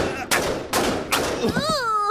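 Three gunshots from a big, heavy conventional firearm crack out in quick succession. Each is a loud, sharp blast with a short decaying tail.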